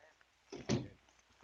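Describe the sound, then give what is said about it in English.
A door is closed during a tense household exchange, giving a brief muffled knock followed by a louder, heavier thud, then quiet. “Good night. And close the door after you.”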